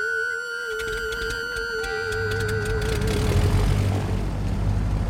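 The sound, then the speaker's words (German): A Viscount turboprop airliner takes off from the Falklands: a steady propeller drone with sustained tonal whines, and a broad engine roar that grows louder through the second half. “Später nach dem Start von den Falklands, jetzt mit einer Turboprop Viscount, setzte sich der Co-Pilot neben mich.”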